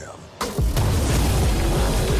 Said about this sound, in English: Guys, they got a tank.